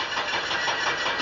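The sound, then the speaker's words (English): An untested used car's engine starts with a brief, rough, churning mechanical rumble that stays loud and steady for about a second. “But you wouldn't want to take off in an untested car when they can sound like this.”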